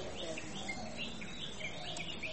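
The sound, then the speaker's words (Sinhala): Birds call in short, high chirps and twitters over a constant soft insect-like buzz, faint and continuous throughout. “දැන් බලන්න අපිට මොනවද ඇහෙන සද්ද? කුරුල්ලෝ කෑ ගහනවා.”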